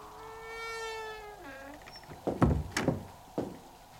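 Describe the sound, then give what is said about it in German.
A door opens with a few sharp clunks and knocks from the latch and wood. Before them comes a long, drawn-out, meow-like whine that bends downward in pitch. “Die Tür geht auf.”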